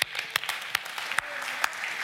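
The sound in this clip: Applause from a church audience welcoming a speaker to the front: brief, dense, steady clapping with a few sharper individual claps standing out.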